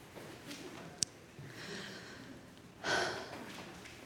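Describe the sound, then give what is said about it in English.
Heavy, out-of-breath breathing: a few soft, breathy exhales, the loudest and longest one coming near the end, with a brief sharp click earlier on. The breaths are faint overall. “Oh, I'm out of breath.”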